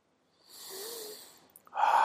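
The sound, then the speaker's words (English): A slow, deep cleansing breath during a guided breathing exercise: a soft airy breath swells and gradually fades. A louder, fuller breath sound then rises abruptly at the end. “Take a nice, slow, deep breath. Cleansing breath.”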